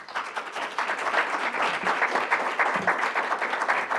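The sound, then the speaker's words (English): Audience applause for honorees at a school panel event, a dense, steady patter of many hands clapping at an even loudness from start to finish. “And so I'd like you to give these folks a hand.”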